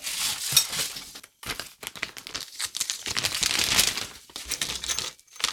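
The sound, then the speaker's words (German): A plastic bag is handled and crinkled, giving bright, crackling rustles in bursts with a few brief pauses, fairly loud and with no one talking. “Dann nehmen wir doch mal diese formschöne Tüte.”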